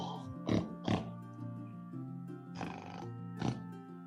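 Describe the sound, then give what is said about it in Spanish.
Pig-like grunts and snorts from a white boar with demonic horns, summoned in boar form: a few short, gruff bursts, then a longer rasping snort, then one more grunt, moderately loud with no talk. “invoca a Agnesmerg y y vamos a invocarlo en forma de jabalí. un jabalí blanco.”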